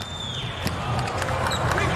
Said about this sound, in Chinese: 穆扬诺维奇的发球